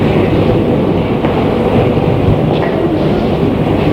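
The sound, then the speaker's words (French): Train pulling out of Perrache station in Lyon on a service bound for Brussels, a steady, broad rumbling roar that holds level throughout, with faint clicks in the noise. “Train se dirige vers la sortie de la gare.”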